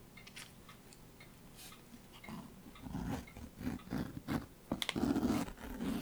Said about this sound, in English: That's what that noise was. That was me unzipping the Bible. That's the sound of the pages.